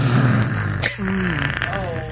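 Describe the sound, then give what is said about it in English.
A man's voice imitates the snoring or heavy breathing of a moviegoer during a film, a low, rasping, voiced breath that wavers in pitch and drags on for a couple of seconds. “The guy sitting behind us, I couldn't tell if he just had a respiratory problem or if he was snoring during the movie, because it sounded like this”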